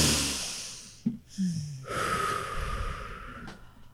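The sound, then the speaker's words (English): A group of people taking a deep breath together: a quick sniff-like intake, then a long, airy rush of breath that holds steady to the end, soft and unvoiced, with no talking. “We're all going to take a deep breath. Ready?”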